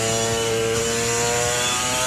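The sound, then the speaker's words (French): A two-stroke 250cc motorbike engine runs in a loud, steady, raspy drone that holds an even pitch throughout with no change in revs. “c'est un son vraiment caractéristique du deux temps, surtout une 250”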